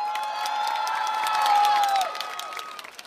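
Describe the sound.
A festival crowd in Zenica applauds and cheers a band, with sharp claps scattered through high whistles and shouted voices. The noise swells to a peak midway, then thins and fades toward the end.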